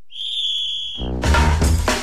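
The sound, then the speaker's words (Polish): A single steady, high-pitched whistle blast, given as a final whistle, holds for about one second and is followed by a loud, dense burst of broad noise. “No i to był ostatni gwizdek w naszej audycji”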